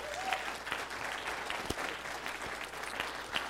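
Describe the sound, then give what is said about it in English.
A round of applause for a team, faint and steady, with a few sharper individual claps standing out from the even patter. “And so I just wanted to give Brad and his team a round of applause for doing an amazing”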